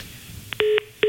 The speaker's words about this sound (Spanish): Se cayó la llamada con Juan Antonio de Labra.